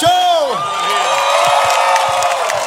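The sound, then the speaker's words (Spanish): Crowd cheering and clapping, opening with a long whooping shout, then a few sharp claps standing out over a steady roar of voices. “¡Un aplauso,”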